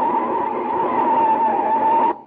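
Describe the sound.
Tires squealing as a car brakes hard and skids in a near miss: one loud, sustained screech holding a steady pitch for about two seconds, then cutting off abruptly and fading.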